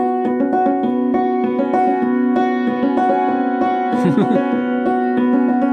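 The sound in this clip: Hammered dulcimer notes struck in a repeating B, F sharp, B, C sharp pattern, many bright ringing strikes in a quick, steady rhythm, each note sustaining and overlapping the next.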